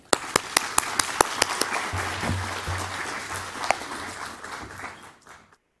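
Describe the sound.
Audience applause welcoming a guest speaker who is about to lead a presentation of a traditional Seder dinner. A few sharp, separate claps open into dense, steady clapping that fades out near the end.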